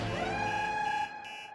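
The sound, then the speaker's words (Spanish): An alarm goes off after an alarm lever is pulled, sounding as one sustained electronic tone with bright harmonics that holds steady, then drops in level near the end. “Hasta que finalmente, Lucy estiró la mano y tomó la palanca de alarma y...”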